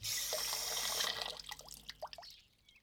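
Tap water runs steadily for about a second while dropped chopsticks are washed under it, then gives way to a few scattered drips and small knocks.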